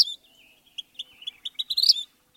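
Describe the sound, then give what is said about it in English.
A vermilion flycatcher calls in thin, high-pitched chirps, sparse at first and then quickening into a rapid run of notes near the end, heard alone against silence. “Even its scientific name, a title bestowed by sober museum experts, bows to its flash, Pyrocephalus rubinus, the ruby firehead.”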